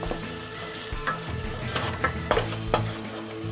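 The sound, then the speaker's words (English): Plain flour is stirred into boiling water in a pan until it forms a thick ball of dough. A spoon scrapes and slaps through the mixture in several sharp strokes over a soft sizzle. “I'm going to add in half a cup of plain flour. And very quickly, we're going to keep on continuously stir this. Stir through until you get like a thick ball of dough.”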